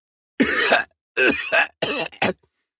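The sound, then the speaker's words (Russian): A coughing fit of five harsh, voiced coughs in quick bursts separated by short gaps, brought on by icy air filling the chest; loud and alone, with no speech. “Заливаюсь кашлем, что приносит мне новые, еще более яркие и совсем неприятные ощущения.”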